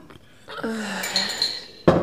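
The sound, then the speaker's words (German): A lid being handled among dishes, a faint ringing scrape with a sustained tone, followed by a sharp clink at the end. “Gib mal her den Deckel hier, so.”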